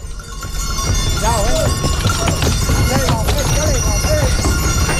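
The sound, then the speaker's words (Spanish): Mules' hooves knock and clatter as the animals hop up a ramp onto barges. The loud hoof strikes come in a dense, continuous run over a low rumble. “Eso era efectivamente un leve bote que dan las mulas, ya se suben a las barcazas de los Cristóbal, se oye de fondo alguno de las bestias que no ha subido todo lo suave que”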